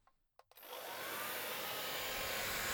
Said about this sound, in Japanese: 髪の毛を乾かしてあげるね。後ろ、失礼します。